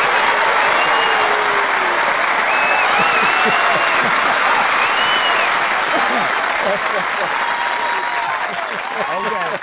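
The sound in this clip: A live audience applauds after a poem reading, a dense, loud, steady roar of clapping that runs throughout with crowd voices mixed in, thinning slightly at the very end.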